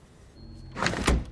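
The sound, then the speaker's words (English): A door closes as a woman enters a storeroom with shelves of drug vials: a brief scraping slide, then a soft, dull thump, all fairly quiet. “She enters a storeroom with shelves full of vials of drugs. She leans back against the door and composes herself”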